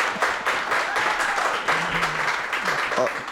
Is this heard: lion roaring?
no